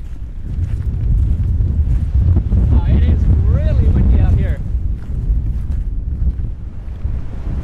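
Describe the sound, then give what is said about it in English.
Strong wind blows very hard against a cliff, with loud, low, rumbling gusts buffeting the microphone throughout. A voice speaks briefly in the middle of the gusts. “the wind is blowing very hard at the cliff. Very, very hard.”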